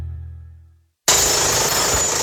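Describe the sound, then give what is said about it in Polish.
A demolition hammer (jackhammer) bursts in suddenly after a short silence and runs loud and continuous to the end with a harsh, rattling roar. A fading low tone comes before it. “Młoty kujące. Wypożyczalnia.”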